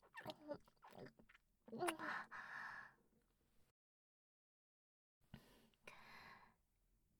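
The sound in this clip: Close, wet chewing of something soft yet crunchy, several bursts of smacking and crunching, then a silent pause before more chewing resumes.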